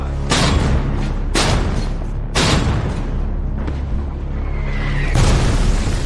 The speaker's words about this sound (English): Then suddenly, German artillery opens up.